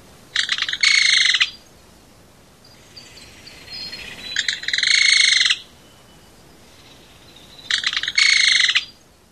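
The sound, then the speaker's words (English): A belted kingfisher gives three loud, dry rattling calls, each about a second long and separated by quiet gaps with faint background noise, in a place on the Olympic Peninsula near water. “Well, that was Eric's namesake bird, the belted kingfisher.”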